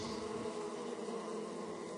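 A swarm of bees buzzes in a dense, steady drone, a continuous layered hum with no pauses or other sounds.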